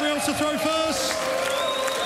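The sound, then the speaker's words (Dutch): Audience applause at the Slovak Darts Open as a player bows after winning a leg, an even crowd clatter running beneath a commentator's voice. “Met een buiging ontvangt hij het applaus van het publiek.”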